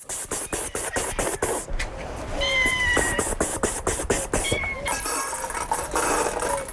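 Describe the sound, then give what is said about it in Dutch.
Abandoned cats meow while being fed at a largely destroyed, deserted kibbutz near the Gaza Strip. A few mid-pitched meows rise over a busy background of rapid clicking and rustling. “Ze geeft er katten te eten die massaal werden achtergelaten in de chaos waarin de bewoners op 7 oktober vertrokken.”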